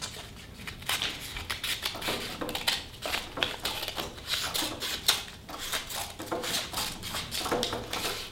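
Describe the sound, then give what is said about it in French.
Scissors cutting a two-sided paper band down the middle during a topology demonstration, heard as a steady, quiet run of crisp snips and papery rustles with no voices. “Je prends cette bande bilatère et je la coupe, toujours par le milieu.”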